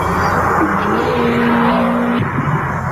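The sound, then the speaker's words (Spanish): A Seat Ibiza Cupra rally car engine races in a 1996 car advert: a loud revving roar with a high whine that climbs and then holds steady before cutting off abruptly near the end. “¿No había terminado ya el rally? Debe ser un Cupra.”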